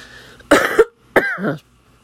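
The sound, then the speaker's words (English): Two harsh, loud coughs from one person, separated by a short pause, with quiet before and after. “That was my first cough for the day.”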